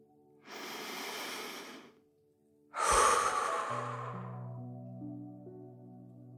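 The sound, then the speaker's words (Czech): A deep breath drawn in through the nose, then after a pause a long, relieved exhale that gradually fades, with soft sustained tones underneath. “se jednou zhluboka nadechneme a s dlouhým úlevným výdechem necháme celé tělo stěžknout.”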